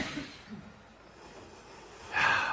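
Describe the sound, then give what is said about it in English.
A deep breath taken by someone breathing through a cold during a group breathing exercise. Soft, low breathing gives way to a louder, airy rush of breath near the end. “So let's all start out with a good deep breath.”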